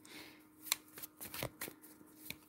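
Playing cards being handled during a card reading, giving a few crisp snaps and papery flicks spread unevenly over a couple of seconds, fairly faint and with no talk.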